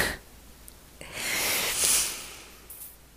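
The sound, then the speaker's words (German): A person taking one deep breath during a pause in talking, a single long, airy rush that swells steadily, peaks, then fades away into near quiet. “Jetzt muss ich auch einmal ganz kurz Pause machen und einmal atmen.”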